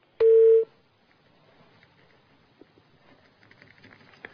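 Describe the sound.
A telephone tone marks a dropped phone call: one short, loud, steady beep that stops abruptly, followed by faint crackling line noise with a few soft clicks.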